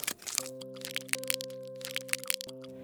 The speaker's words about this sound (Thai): หมาป่ารีบกินลูกกวาดอย่างเร่งรีบ เพราะความตะกละตะกราม โดยลืมไปว่าลูกกวาดนั้นแข็ง